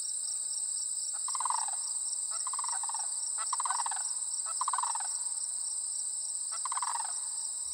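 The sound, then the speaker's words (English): An unusual bird call heard outdoors in March or November repeats six times as short, low, harmonically rich calls at a fairly even pace, set against a continuous shrill insect drone. “this really incredible bird call. And it sounds like this.”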